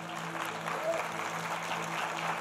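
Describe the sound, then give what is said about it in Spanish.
Faint applause from a church audience during a sermon: a soft, continuous patter of many hands over a steady low electrical hum, staying even in level throughout. “Amén, vas a aplaudir, aplaude bien.”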